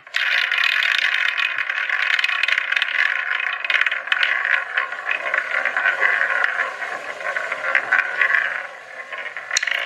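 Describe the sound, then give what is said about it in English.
A spinning quiz wheel gives a continuous, fast rattling and scraping clatter that holds steady for nearly ten seconds, with no voices. “So, for the first time in 2024, let's spin the wheel.”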